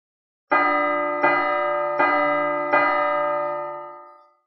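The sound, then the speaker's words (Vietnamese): Four strikes of a huge ancient bell ring out at a steady pace. Each deep, resonant metallic toll swells over the lingering hum of the one before, and the sound slowly fades after the last. “tay phải liên tục ấn mạnh vào chuông cổ khổng lồ.”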